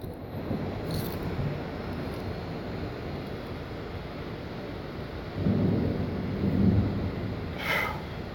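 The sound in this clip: Close thunder during a rainstorm: steady, hissing rain runs throughout, and a low rumble swells up in the second half before easing off.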